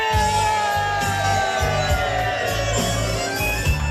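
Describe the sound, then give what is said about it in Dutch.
Crowd shouting and whooping as an audience cheers a singer who performs dressed as a tribute to a well-known Dutch crooner, a loud, continuous roar of many voices that stays at an even level throughout. “Ja, we horen het publiek juichen. Je wordt toegezongen, toegejuicht.”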